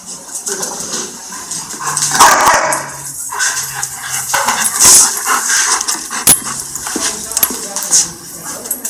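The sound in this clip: A dog barks loudly while being pulled back, several sharp, irregular barks and yips mixed with people talking nearby, and a few faint clinks in the background.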